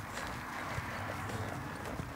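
Hoofbeats of a horse being ridden, a soft, even clip-clop of hooves under steady background noise, with no talk.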